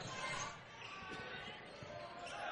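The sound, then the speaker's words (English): Basketball dribbled on the court during a Hastings College vs Midland men's college game, a few dull thumping bounces under a commentator's steady talk. “Reggie Thomas is dribbling with the ball out here just past the 10-second line.”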